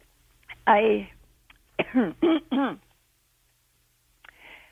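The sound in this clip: Throat clearing from a dry throat: one rough rasp, then three quick harsh rasps in a row, each sliding in pitch, and a faint final rasp after a pause.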